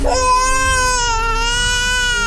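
A baby cries in one long, loud, sustained wail that stays at a steady high pitch from start to finish.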